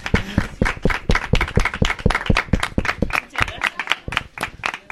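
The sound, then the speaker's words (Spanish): A small audience at a family radio workshop during a festival gives crisp, loud, irregular claps that are easy to pick apart. They keep up for five seconds and grow a little sparser toward the end. “Un aplauso. Muchas gracias.”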